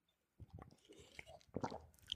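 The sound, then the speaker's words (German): Quick sip of a Synergy drink: a few brief, soft wet mouth and swallowing sounds, faint and irregular, with no talk. “Trink ganz kurz einen Schluck vom Synergy.”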